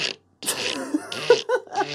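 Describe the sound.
A man's voice imitates a disposable camera shutter with a few short, clipped mouth clicks and breathy bursts separated by brief gaps.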